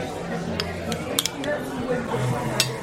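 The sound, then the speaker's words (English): Cutlery clinks and scrapes on a plate as a fried egg is laid on top of a steak at a lunch table, a few sharp metallic ticks scattered over low voices talking. “he's putting the fried egg on top of his steak.”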